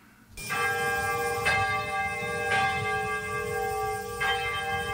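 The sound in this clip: Church bell ringing out for the first time after its reinstallation, the bell having been destroyed by the atom bomb: four slow, resonant strikes with a long humming sustain between them.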